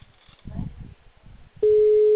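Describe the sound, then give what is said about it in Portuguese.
A telephone ringing tone heard while calling someone: a steady, mid-pitched electronic tone begins abruptly partway through and holds to the end, after a brief stretch of muffled low sound. “Tô ligando pra aquele cara de novo. Que me respondeu mais cedo.”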